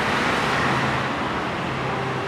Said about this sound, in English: But now I'm back in the nice embrace of the beeping bus-filled scooter land of the inner city.